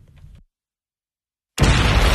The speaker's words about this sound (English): Some fireworks, huh? You feel that?